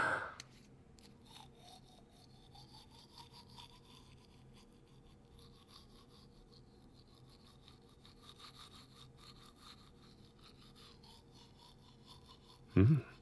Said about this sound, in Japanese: うん、いい感じ。次は下の歯磨くからね。